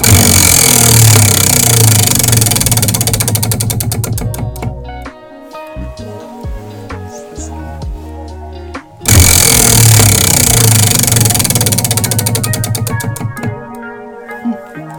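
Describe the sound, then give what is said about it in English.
A spinning wheel clatters with rapid, loud ticking, broken by a quieter, more tonal stretch in the middle before the dense clicking returns at full strength. “I'll leave you guys with the sound of a spinning wheel.”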